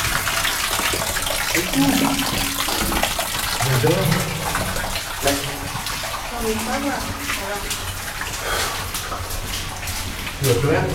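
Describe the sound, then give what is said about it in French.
Hot water running from a tap, a steady rushing hiss that fills the whole stretch at an even level, with voices talking over it. “Attention, mais l'eau chaude sort de là.”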